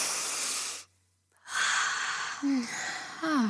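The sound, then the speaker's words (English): A deep breath taken as a group exercise: an airy breath, a brief pause of near silence, then a longer breathy exhale with a couple of short voiced sighs. “Let's do a deep breath, everybody. Ready? One more.”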